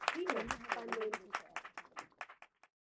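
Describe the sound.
Audience applause welcoming a panel moderator at a women-in-tech event: a burst of clapping that tapers off over about two seconds. A voice is heard over the opening.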